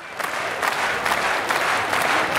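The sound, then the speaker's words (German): A crowd in a large arena near Basel applauds and cheers at a Swiss wrestling festival, a dense, steady roar of clapping and crowd noise throughout. “Die Arena tobt, wenn einer der Schwinger triumphierend den Rücken des Gegners ins Sägemehl gedrückt hat.”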